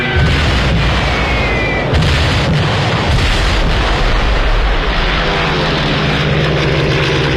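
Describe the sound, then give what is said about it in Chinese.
A Stuka dive bomber dives with its siren fitted, a loud, dense roar of engine noise with heavy booms and a faint high whine running through the harsh, continuous din. “斯图卡式俯冲轰炸机装备有警报器，训练有素的飞行员在下降过程中必须忍受住高压，并在最后一刻向目标精确投放炸弹。”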